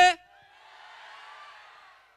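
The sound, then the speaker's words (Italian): A live audience at a radio concert event shouts in unison on cue. A brief voice at the start gives way to a sustained crowd yell that swells and then fades out. “quindi io vi chiederei un urlo al mio 3. 1, 2, 3!”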